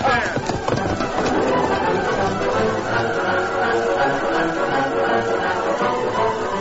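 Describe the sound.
Hoofbeats of a horse setting off on a ride in a radio drama effect, a steady run of clip-clop beats continuing throughout, with voices alongside.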